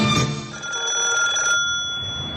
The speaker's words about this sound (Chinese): 桌上的电话急促地响了起来